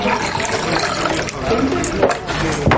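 A drink is poured into a small bowl, a steady splashing flow of liquid that runs loud and unbroken for the whole stretch.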